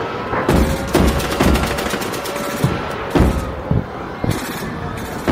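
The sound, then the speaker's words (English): Anti-aircraft guns fire during a midnight air raid over Moscow, loud rapid bursts of gunfire with dense machine-gun-like rattling, then separate heavy booming shots at irregular intervals. “The midnight sky is lighting up now. It looks like Moscow is under attack. Anti-aircraft guns are roaring.”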